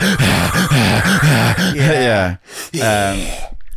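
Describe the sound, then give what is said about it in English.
A voice imitates the heavy, rasping breathing of a masked villain, the way kids do while drinking from a water bottle: one long voiced breath, a brief pause, then a shorter one. “Mine is when they make Darth Vader sounds when they're drinking from the water bottle. You know, when kids breathe,”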